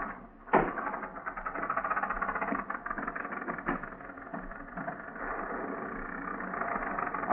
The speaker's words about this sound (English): Maybe you better stop and let me have a look under the hood. All right. Shall I turn off the motor? No, no, no, not yet.